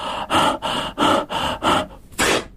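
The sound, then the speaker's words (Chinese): A voice imitates heavy panting as a man catches his breath after a hard fight, a string of seven loud, rough breaths in a steady rhythm with a short pause before the last one. “袁三爷利用这个机会喘了喘气”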